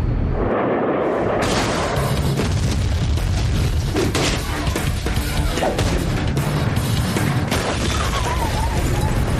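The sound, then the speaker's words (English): Airstrike explosions in a video game, a dense, continuous barrage of loud rumbling booms and blasts that builds after the first second and stays heavy throughout. “Oh yeah, it's that airstrike they were talking about. And everyone goes scrambling.”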